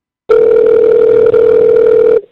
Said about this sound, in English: That's totally going to voicemail. That's what that beep means. Beep means that he's on the other line.